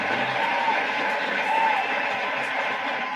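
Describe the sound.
A studio audience cheers and applauds in a steady, even wash of crowd noise that holds at moderate loudness without clear breaks.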